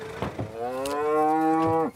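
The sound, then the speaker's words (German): A Charolais mother cow, one of a herd awaiting their calves, gives one long, loud, low moo after a few short thuds. “700 Kilo schwere Tiere sind schwer zurückzuhalten. Mit jeder Fuhre steigt die Unruhe. Die Mutterkühe erwarten ihre Kälber.”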